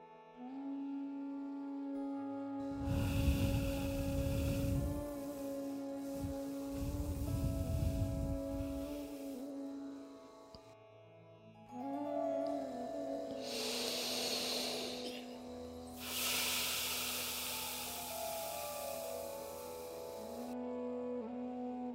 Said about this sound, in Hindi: और मुंह के दाहिने भाग से उसको धीरे से छोड़ना है। फिर नाक से सांस लेके फिर बाएं तरफ से धीरे से छोड़ना है।